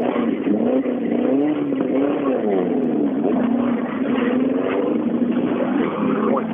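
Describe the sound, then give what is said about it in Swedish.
A BMW E36 with a six-cylinder engine runs at a car racing event, giving a loud, steady, buzzing engine drone whose pitch wavers up and down throughout. “Först där börjar bilen gå rent. Aj, aj, aj. Här kommer Wallman med E36. Med en sexa i.”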